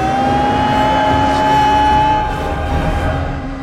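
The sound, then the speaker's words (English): A racing kart's engine drones on a race track as it speeds toward a jump: a loud, steady high whine layered over a lower hum, holding its pitch throughout. “The other carts overtake Mario, and he puts his foot down, zooming past them and heading straight for the jump.”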